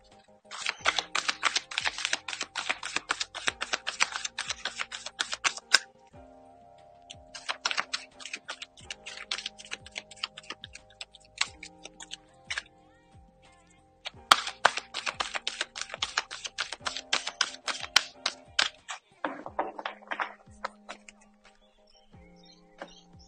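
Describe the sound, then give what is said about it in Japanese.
Fortune-telling cards being shuffled give crisp, rapid flutters of papery clicks in several long bursts separated by short pauses, over faint steady background tones. “今日のね、占いを行っていきましょう。カードをシャッフルします。少々お待ちください。”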